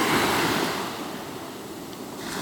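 Sea waves wash in a continuous, broad hiss of surf that ebbs slightly through the middle and swells again toward the end, with no voices.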